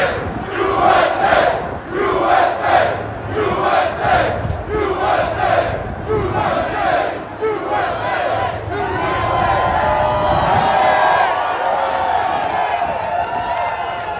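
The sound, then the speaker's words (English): Construction workers in New York City cheer as a crowd to greet an arriving figure, with rhythmic chanting pulses for several seconds that give way to a sustained, loud roar of cheering and whoops. “But this was his reception when he rolled up in New York City with all these construction workers rolling out to greet him.”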